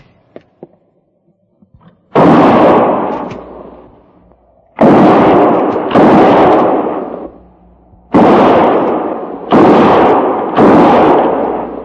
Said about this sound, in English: And no more than 3 rounds each. Fire between the trees.